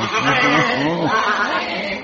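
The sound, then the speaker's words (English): A sheep bleats in a street in Athens, giving wavering, nasal cries that run almost without a break through the moment. “It's, not often you see sheep in the streets of Athens. This one's, curiously affectionate.”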